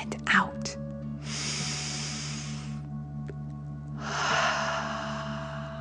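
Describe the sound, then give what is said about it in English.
A deep breath drawn in through the nose and then let out through the mouth, two long breathy rushes of air over a steady low hum. “Breathe in through your nose and then out through your mouth. Pretending you are breathing fire. Deep breath in”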